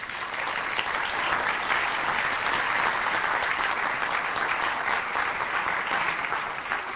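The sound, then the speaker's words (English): A church audience applauds a visiting guest from Russia: dense, steady clapping from many hands holds at an even level for the whole stretch, with no voices standing out. “I wanted to welcome a guest from Russia. Would you stand up? Let's give her a hand.”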